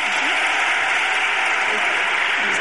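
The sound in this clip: Applause for a guest, a steady, dense wash of clapping that holds at an even level for its whole short length.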